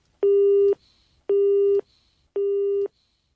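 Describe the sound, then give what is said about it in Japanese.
A telephone busy tone after the caller hangs up: three identical low, steady beeps with even pauses between them, loud and alone. “電話が切れてしまいましたので、今電話を切られた方大変怒って電話を切られたと思うんですけれども”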